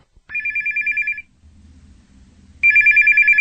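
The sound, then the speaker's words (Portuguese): A telephone ringing on an outgoing call, two loud bursts of fast, trilling electronic ring separated by a short pause filled with a low hum, no voices. “Assim que o homem foi embora, Pedro ligou para Valdemar.”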